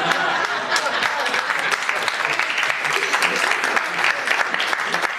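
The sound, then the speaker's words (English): Audience applause during a comedy monologue, a dense, continuous roar of clapping lasting several seconds while a voice speaks over it. “You better clap, because, girl, you know it's true.”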